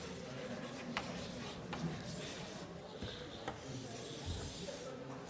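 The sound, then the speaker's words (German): Writing on a board during a maths lecture: a steady, soft scratching and rubbing that runs throughout, with faint taps here and there. “Und ich schreibe zunächst mal allgemein hin.”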